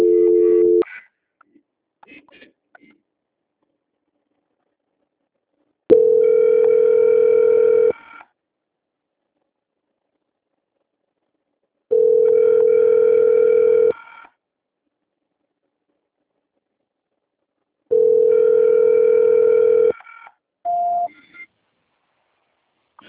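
Telephone ringback tone while waiting for a call transfer: three long, steady mid-pitched tones of about two seconds each, evenly spaced by silence, with brief tones and beeps at the start and end.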